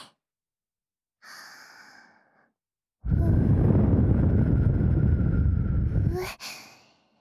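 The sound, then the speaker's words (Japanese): Gentle blowing into the ear, heard as a short soft puff, then a long, strong, airy blow lasting about three seconds, and a brief tapering exhale at the end. “最後にふうふうしてあげますね”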